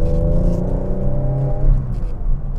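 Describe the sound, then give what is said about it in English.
Car engine downshifting from fourth to third and then into second with a double clutch and a little throttle; a steady harmonic engine drone holds, then loosens into rougher rumble as the revs change. “Fourth gear, down to third. Into second, double clutch, little gas, pedal throttle.”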